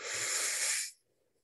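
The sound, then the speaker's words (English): One deep inhale during a guided breathing meditation: a breathy, hissing rush of air lasting just under a second, then cut off into near silence. “So follow my lead. Nice big inhale together.”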